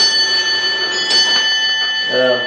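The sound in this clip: Clock chiming, with sustained, ringing bell tones throughout and a voice briefly heard near the end.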